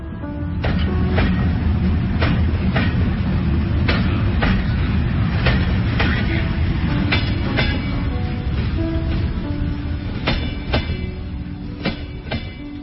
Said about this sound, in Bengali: হাওড়া স্টেশনে, সেখান থেকে লোকাল ট্রেনে বর্ধমান।